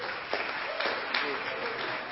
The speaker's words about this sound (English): So they're sort of helpers today. So give them a little applause